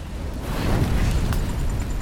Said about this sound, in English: Their lorry is on fire.